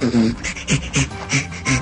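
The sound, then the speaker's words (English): A chimpanzee laughs while being tickled, giving rhythmic, breathy panting bursts in a quick series of grunting pulses, each rising and falling in loudness, with no other sound. “That's the sound of a chimp being tickled and laughing.”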